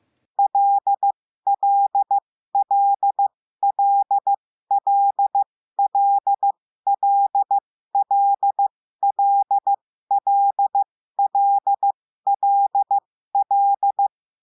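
Morse code tones send the letter L again and again: a single clean mid-pitched tone keyed in many identical groups of dit-dah-dit-dit, evenly spaced, with nothing else heard.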